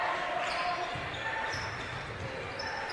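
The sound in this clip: A basketball dribbled on a court during a game, with dull low bounces beneath steady crowd noise and a voice talking over it.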